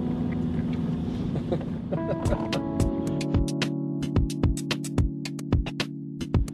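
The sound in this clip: A self-driving car setting off, with a steady low engine and road rumble. Partway through, a tonal hum joins in and a regular run of many sharp clicks ticks along on top of the rumble.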